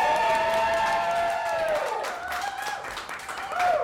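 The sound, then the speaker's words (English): A live audience at an event at the Pleasure Chest in New York City screams and cheers with whoops and some clapping. High, sliding screams ride over a loud, steady crowd roar that dips briefly midway and swells again at the end. “screaming in ecstasy so that we can get that on the microphones, that would be really great. So let's do it one more time.”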